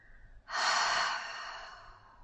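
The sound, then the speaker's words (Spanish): Slow, deep breath during a relaxation breathing exercise: after a quiet start, one long, airy breath begins strongly and then eases into a softer, drawn-out tail. “Inhala largo y profundo. Y exhala largo y profundo.”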